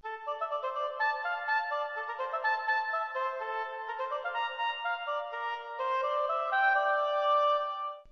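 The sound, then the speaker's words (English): A staccato oboe melody plays alone in crisp, detached notes that bounce in a lively, steady rhythm. It holds a bright, reedy tone at a moderate level throughout. “So the melody comes in on the oboe, and it's a very staccato-like melody. And that sounds like this.”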